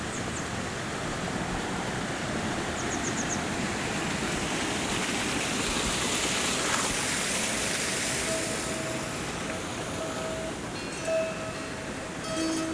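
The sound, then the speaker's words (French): Water flows steadily through the gardens of the Alhambra, a dense, even rushing wash that stays at one level throughout with no breaks. “Je me promène autour des jardins de l'Alhambra. Beaucoup d'eau.”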